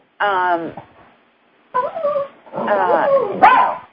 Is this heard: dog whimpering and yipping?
yes